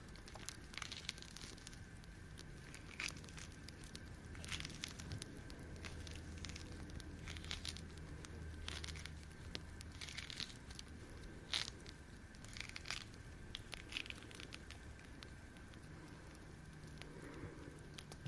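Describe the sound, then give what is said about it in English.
Soft-skinned fruit being peeled by hand: a steady stream of quiet, crackly tearing and crunching snaps over a low hiss, with no talking. “So I'm going to peel one for you.”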